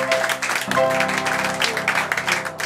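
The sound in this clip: Applause for participants during an evening radio show, a busy patter of clapping layered over a steady tonal background, holding at a fairly loud level throughout.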